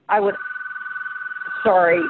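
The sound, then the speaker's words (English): A home telephone rings with a steady, warbling electronic tone that pulses rapidly for over a second, with voices talking just before and after it. “that's my home phone that I can't stop.”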